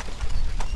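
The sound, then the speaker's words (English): A horse-drawn carriage on gravel gives a short burst of hoof clops over a steady, gritty rumble of rolling wheels. “So this is the sound of a horse-drawn carriage on gravel.”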